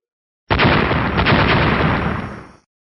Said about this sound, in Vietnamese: Tiếng nổ mạnh, thanh thế kinh người.